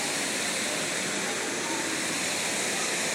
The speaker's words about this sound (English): Statue with another fountain, waterfall. Yep, that's pretty.